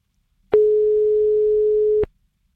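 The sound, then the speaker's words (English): A single telephone line tone sounds on a call nobody picks up: one sustained, even, mid-pitched beep lasting about a second and a half, heard alone. “let's see if we manage to get a caller on the other end”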